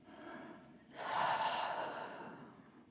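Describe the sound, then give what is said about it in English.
Deep, deliberate breathing for a relaxation exercise: a softer breath is followed by a louder, long, airy breath that swells and slowly fades. “take a few deep inhales and loud exhales from the mouth. Inhale through the nose, exhale mouth.”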